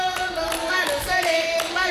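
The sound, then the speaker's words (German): At a concert, an audience claps along in a steady, quick rhythm, about six claps in two seconds, layered over sustained, tonal music. “Und für den letzten Song brauche ich beide Hände oben. Und ihr zeigt mir, dass ihr klatschen könnt, okay?”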